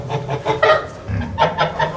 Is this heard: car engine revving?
no

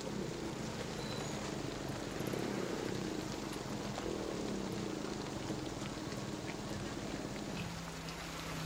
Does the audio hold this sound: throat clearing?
no

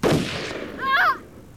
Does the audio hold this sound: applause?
no

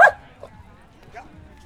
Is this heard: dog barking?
yes

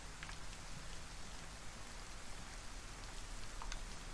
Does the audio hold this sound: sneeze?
no

